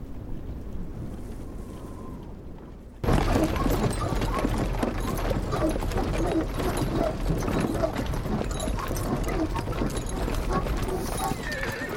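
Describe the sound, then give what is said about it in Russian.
Hooves clip-clop as a brown horse pulls a cart with a large wooden cage across a plain, a steady, dense rattle and rumble with wind noise that begins suddenly after a few seconds of quieter sound. “По равнине едет телега с большой деревянной клеткой, запряженная коричневой лошадью”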